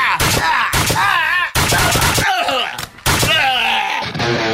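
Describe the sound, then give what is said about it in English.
Nail guns firing as weapons: a few loud, sharp bursts of rapid shots in quick succession, over a wavering, groaning voice. “But we still shot him with our nail guns while we had the chance.”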